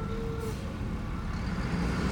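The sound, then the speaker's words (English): A garbage truck drives past on a sunny day, heard through open car windows while the car's engine is off. A steady low rumble fills the moment, with a faint brief whine early on and no voices. “That's the garbage truck that's going by.”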